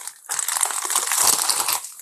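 A fizzy drink from a can poured into a glass: a steady crackling, fizzing rush that lasts about a second and a half, alone with no talk.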